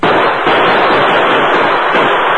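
Gunfire from rustlers shooting through the windows of a shack in a western shootout: a loud, dense, unbroken barrage of blasts with no separate shots standing out.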